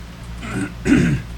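Throat clearing by one person, two rough, harsh bursts in quick succession, the second louder and longer than the first, standing out alone against quiet background.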